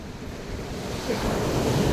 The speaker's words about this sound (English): really hoping to get a nice sort of stereo recording of the ocean. Sea, it's not the ocean at all, it's the sea.